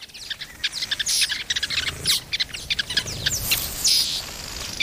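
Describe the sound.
Small birds chirping at their nest during nest building, with many rapid, high, bright chirps and tweets overlapping in quick bursts throughout, fairly steady in level with no talk.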